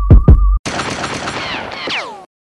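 Gunshot effects: two sharp booming shots over a steady tone, then a burst of rapid crackling fire with a falling whistle near the end, cut off abruptly.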